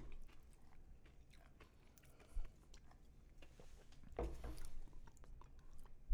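Faint chewing and crunching of root beer flavored rock candy, a quiet grinding with a couple of sharper, louder bites standing out.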